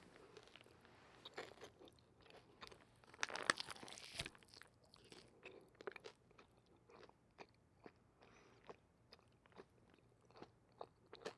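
Crunchy bites being chewed: many crisp, sharp crunches in an irregular rhythm, with one denser, louder burst early on. The crunching is quiet and plays alone, with no talk.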